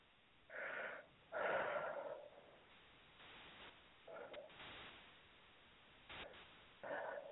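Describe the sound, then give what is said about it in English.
Deep breaths taken during a guided infinity healing session, several slow breathy inhales and exhales, each a soft airy rush with a wheezy edge and quiet pauses between them. “If you'd like to let all that go, say yes. Yeah. And take three nice deep breaths.”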